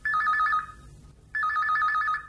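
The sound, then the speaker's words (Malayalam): A telephone rings with an incoming call to a home: two bursts of fast, trilling electronic ringing, each lasting just over half a second, with a short gap between them. No voices are heard. “നേരത്തെ പറഞ്ഞില്ലേ, ഒരു programme ഇട്ടതിന്റെ phone കോളാണ്.”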